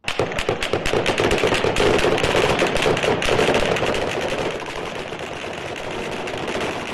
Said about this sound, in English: Police and the army opened fire and launched tear gas canisters to disperse hundreds of protesters all over Baghdad.